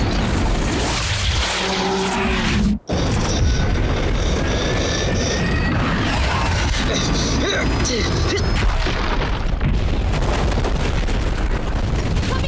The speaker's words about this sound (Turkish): Çok geç, tırman. Bomba atıldı.